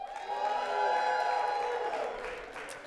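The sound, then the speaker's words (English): A church audience cheers and makes noise, a fairly faint, steady mix of crowd cheering and whoops that swells slightly in the middle and tapers toward the end. “let those in-house know that you're with them by making some noise. Come on.”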